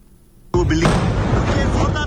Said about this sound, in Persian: گزارشدهی زنده تلویزیون دان از لحظه یک انفجار در قرارگاه مرکزی پلیس در شهر کراچی، بزرگترین مرکز تجارتی پاکستان.